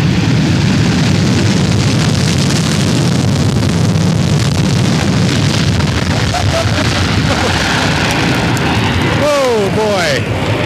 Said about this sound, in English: Whitman Field, the British Airways SST Concorde. Boy, what a beautiful plane. Listen to this thing.